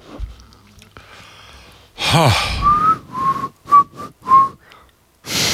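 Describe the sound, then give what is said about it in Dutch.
A person whistling: a breathy sigh, then a few clear mid-pitched whistled notes, the first drawn out and the rest short and separate, with no talk over them. “Wat ga je doen? Fluiten. Waarom? Fluiten het weekend in.”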